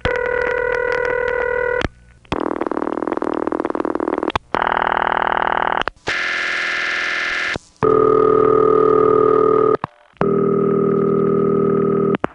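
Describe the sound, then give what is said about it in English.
Telephone ringing tones on long-distance calls: six steady, buzzing tone bursts of differing pitch and timbre, each loud and lasting about two seconds, separated by brief silent gaps. “So let's listen to a few long-distance calls that do include a ringtone, and for each of these long-distance calls, if it's one of these tones, it's the Bell System.”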